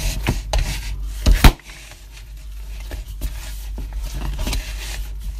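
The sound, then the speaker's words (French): Dough being kneaded by hand after the ingredients are mixed in a well of flour: soft, steady rubbing and pressing with a few sharper slaps near the start, fairly quiet throughout. “maintenant, soit au robot, mais à la main, ça va tout à fait bien aussi. On va mélanger gentiment tout ça et pétrir la pâte pendant quelques”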